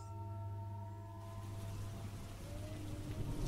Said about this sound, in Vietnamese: Từ ngoài kia, có tiếng sấm đùng đục gầm vang. Kèm theo đó là mưa bắt đầu rơi, lộp bộp, lộp bộp.